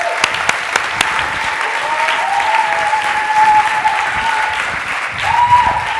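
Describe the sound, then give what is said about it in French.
A crowd gives a speaker a warm welcome with loud, continuous applause that swells in the middle and again near the end. “Est-ce qu'on peut l'accueillir chaleureusement? Can we give him a warm, warm welcome?”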